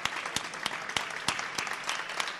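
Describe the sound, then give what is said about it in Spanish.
An audience claps in recognition of a group of IKEA staff, with the dense patter broken by several sharper, louder individual claps. The applause holds a fairly even level for a few seconds. “para los que pido, a modo de reconocimiento, un aplauso.”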